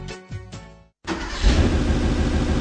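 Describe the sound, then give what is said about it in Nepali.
A truck engine rumbles loudly after a brief silent gap, a rough, steady low roar that swells and holds until the end. “बिहानै truck घ्यार घ्यार गरेछ बेलुकै truck घ्यार घ्यार गरेछ”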